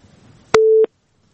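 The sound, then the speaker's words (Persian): Telephone busy tone after a dropped call: one steady, mid-pitched beep lasting about a third of a second, opened and closed by sharp clicks, then silence. “بازم تماس قطع شد.”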